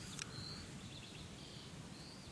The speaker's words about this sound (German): Rechts von uns. Ganz zarter Gesang, ja auch sehr hochfrequenzig, den manche ältere Leute nicht mehr hören.